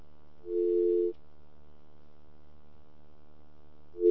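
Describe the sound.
A telephone line tone sounds during a phone check: a faint, buzzy, steady low tone lasts about half a second, and a second one starts at the very end, over a continuous low hum.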